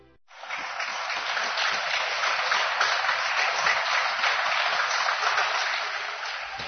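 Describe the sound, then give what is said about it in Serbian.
Applause in support of doctors at the start of a curfew begins sharply and continues as a dense, even wash of clapping for about six seconds, with no speech. “E da, ovako je počeo sinoć policijski čas. Baš ovako, aplauzom i podrškom našim lekarima.”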